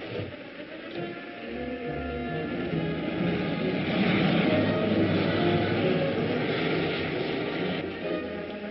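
An aircraft engine drones as the plane makes a 180-degree turn to come in for a landing, a continuous rumbling roar that swells slightly through the middle and holds steady, with no voices.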